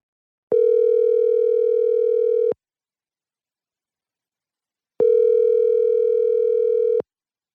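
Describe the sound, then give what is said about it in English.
Ringback tone of an outgoing telephone call: two steady, loud electronic ring bursts, each about two seconds long, separated by a silent pause, with no voices. “I'm about to call my grandma. All right, let's see what happens.”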